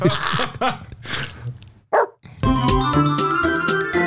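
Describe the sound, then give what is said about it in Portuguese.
Frightened dogs barking in a quick run of loud, sharp barks and yips, followed by a short pause and then music. “Olha os cachorros com medo, velho.”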